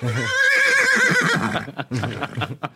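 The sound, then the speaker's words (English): An excited horse gives a long, loud, wavering whinny, then makes a few short snorts and breathy huffs. “You, that horse is really excited.”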